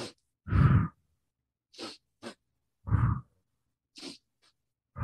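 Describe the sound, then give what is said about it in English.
Breathing in a set pattern, two short sniffing inhales through the nose followed by one longer, louder breathy exhale through the mouth, repeated in a steady rhythm with quiet gaps between breaths. “you could do a breath practice that's as simple as breathing in for 2 strokes in your nose and 1 stroke out your mouth. So it sounds like,”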